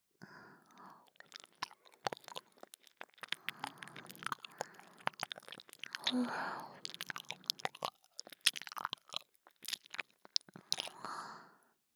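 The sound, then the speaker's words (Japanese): Quiet ear cleaning, with many faint, irregular crackling, scratching and crunchy rustles close together, soft and continuous, no talk over them. “耳掃除が終わったら、そちらも退所させていただきますね。もう少しで、お耳、きれいになりますよ。”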